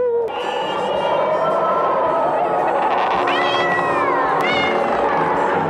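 A cat meows in a few drawn-out, sliding cries that rise and fall in pitch over a dense, steady background.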